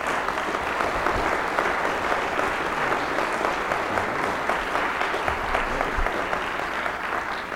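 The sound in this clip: An audience applauds a lecturer being welcomed to the podium for a morning talk, a dense, even wash of many clapping hands that holds steady throughout.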